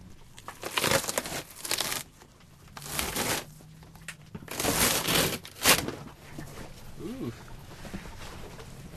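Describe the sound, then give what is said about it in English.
Latex cast being peeled off a house's outside siding: several bursts of ripping and crackling, rising and falling in loudness with short pauses between pulls, fairly quiet overall. “So we are about to peel off part of the outside siding part. Let's do it.”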